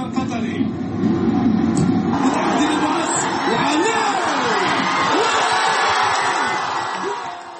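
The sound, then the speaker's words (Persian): Crowd of football fans celebrating Qatar's win over Japan at the Asian Cup, men and women together: a loud, continuous roar of cheering and whoops, with voices mingling throughout. “در جام جهانی آسیا را جشن گرفتند. تیم فوتبال قطر دیروز تیم فوتبال ژاپن را شکست داد. زنان و مردان مشترکاً این مسابقه هیجانی را تماشا کردند.”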